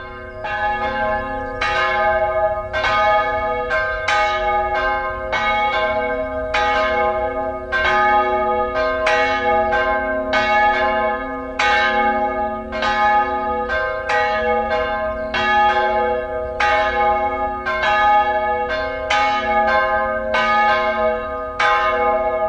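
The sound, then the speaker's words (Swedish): Church bells of Lycke church in the Gothenburg diocese ring in the weekend on a Saturday evening, several bells pealing in a loud, continuous, overlapping stream of many strikes with lingering resonant tones throughout. “Men allra först får vi höra klockorna i Lycke kyrka i Göteborgs stift ringa in helgen.”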